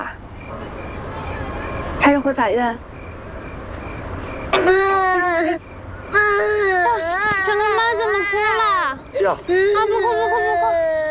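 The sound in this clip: Baby crying in several loud, wailing bursts with strongly wavering pitch, separated by short pauses and sobbing breaths.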